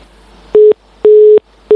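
Telephone busy signal after a call to a distant island disconnects: a steady, low, pure tone pulsing on and off, with three loud beeps separated by short silences.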